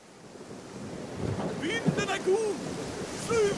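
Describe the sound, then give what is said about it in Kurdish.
Rushing wind and surf noise around a sailing ship at sea, its deck crowded with sailors at work; a low, steady wash with slight swells in level throughout. “ژمارە چواردە کەشتێکە لە دەریادا”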